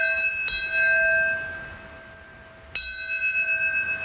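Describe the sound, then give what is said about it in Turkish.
Bells ring at a memorial ceremony for the September 11 attacks. Two clear strikes are each followed by long, sustained ringing tones that slowly fade between them, with no voices. “Çanlar, sirenler çaldı.”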